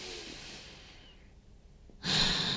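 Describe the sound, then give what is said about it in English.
A deep breath in and out during a guided calming exercise: a soft airy inhale fades into near-quiet, then a louder, fuller breath out rushes in near the end, with no talk. “Take a deep, big breath in and out.”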